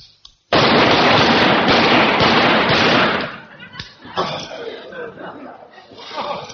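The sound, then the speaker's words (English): Rifle fire on a firing range, five rounds let off in rapid succession, a loud sustained burst of sharp cracks that gives way to talk. “Five rounds. Rapid fire.”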